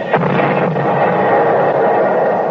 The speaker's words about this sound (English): The Red Artillery. They just dropped the shell behind themselves.